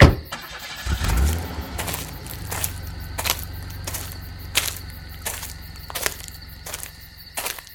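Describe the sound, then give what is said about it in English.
A car engine catches and then runs at a steady low idle hum, with regular sharp clicking taps sounding over it. “Keep the motor running.”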